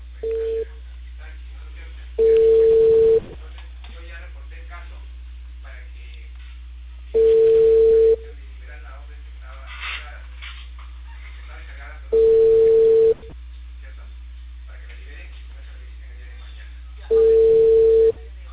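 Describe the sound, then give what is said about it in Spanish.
A telephone ringback tone sounds while a caller rings someone back. A steady mid-pitched tone comes in one-second bursts about every five seconds, with a brief partial ring and then four full rings over a low constant hum. “Cortó la llamada hace rato, por eso le estoy volviendo a llamar.”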